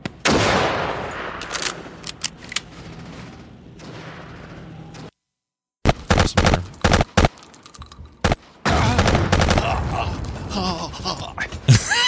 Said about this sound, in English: All right, here comes just some gameplay. Some distance shooting. Guys just running.